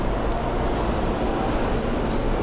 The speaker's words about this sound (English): I can't even look at the train as it pulls away.